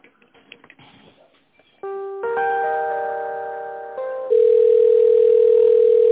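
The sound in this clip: Telephone tones while a call is being transferred: after faint line noise, steady electronic tones switch on in steps and finish as a loud, continuous single tone.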